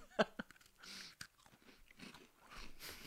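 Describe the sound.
Biting and chewing an oatmeal chocolate chip lactation cookie: a few faint, crisp crunches early on, then softer, irregular chewing sounds.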